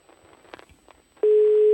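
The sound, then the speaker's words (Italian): A mobile phone ringing as a steady electronic tone that cuts in sharply after faint low sounds and holds loud at one even pitch to the end. “Questo è il cellulare di Penati che squilla.”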